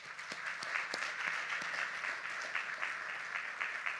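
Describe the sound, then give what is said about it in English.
An audience applauds to thank care providers, with a steady, even patter of many hands clapping throughout and no talking. “So let's give them a hand.”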